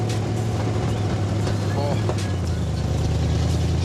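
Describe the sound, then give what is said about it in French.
A car engine with very short, school-made exhaust connectors, not road-legal and driven on school grounds, holds a steady, low, droning rumble throughout. “le bruit est excellent. Vous avez travaillé les échappements en plus pour avoir un son pareil.”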